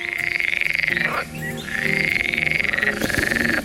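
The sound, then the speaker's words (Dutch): Frog croaking: fast, high-pitched pulsed trills repeat almost without pause, with a brief break near the middle before the calls resume. “Of hij zo klinkt weten we niet, maar we weten wel hoe hij heet. De nieuwe kikker die in India ontdekt is, wordt vernoemd naar de Belgische professor Frankie Bossuyt.”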